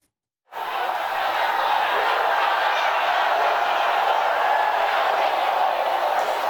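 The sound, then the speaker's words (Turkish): Sustained crowd booing and shouting at a Donald Trump rally in San Antonio, Texas. It starts abruptly after a brief silence and holds loud and steady to the end. “Konuşması bölündü, defalarca yuhalandı. ABD Başkanı Donald Trump'ın Texas eyaletinin San Antonio kentinde düzenlediği mitingdeki konuşması protesto edildi.”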